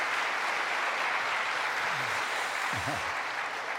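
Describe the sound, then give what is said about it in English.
An audience claps steadily to welcome a guest onto a stage. The dense, even applause holds at full strength from start to finish. “Can y'all welcome Walt Heyer?”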